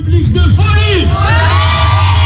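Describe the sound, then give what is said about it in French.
A huge festival crowd at the Florilèges in Réunion cheers loudly, with whoops and yells rising and falling over a steady low hum. “Parce que là autour de moi, il y a un public de folie.”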